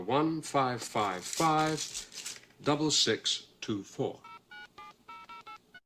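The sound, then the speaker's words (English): A touch-tone telephone keypad dials a number in a quick run of many short beeping tones, after a stretch of people talking. “Would you be so kind as to dial a number for me, please?”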